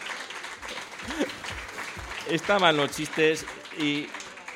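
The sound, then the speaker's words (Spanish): Audience applause at a live show in Nájera after a run of jokes: steady clapping noise throughout, with voices speaking and calling out over it. “Bueno, pues un aplauso, ¿eh?”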